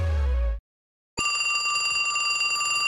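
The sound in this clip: A telephone rings: a short burst, then a gap of silence, then a steady, bright electronic ringing tone that runs unbroken to the end.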